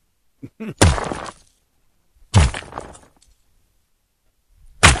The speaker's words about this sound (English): Cinematic alarm hit. No, no more shotguns. Rock smash.